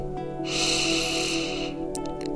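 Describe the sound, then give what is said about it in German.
Deep breath in during a guided breathing exercise, a drawn-out airy inhale lasting about a second, set over soft, steady sustained background tones. “atme für vier Sekunden tief ein.”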